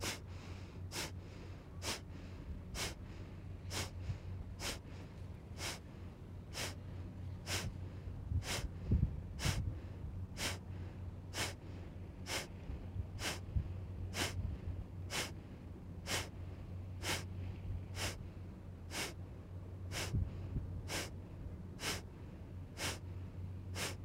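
Rhythmic breaths in a deep breathing exercise, each drawn in like a vacuum by relaxing the navel. Many short, evenly spaced sniffs arrive about once a second over a quiet low hum.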